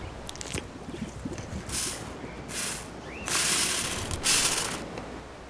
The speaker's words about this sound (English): Takes a bite.